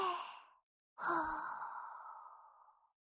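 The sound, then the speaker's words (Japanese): Deep breathing in and out, soft and airy: one short breath fades out, and after a pause a longer, fuller breath slowly tapers away. No one speaks. “一緒に深呼吸して震えを止めよう。ささ。私と一緒に吸って吐いて、”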